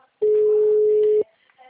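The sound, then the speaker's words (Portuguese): Telephone ringback tone heard while a call is being placed: a single steady mid-pitched beep lasting about one second, loud and clean, then near silence. “Eu tô tentando ligar aqui pro meu cliente”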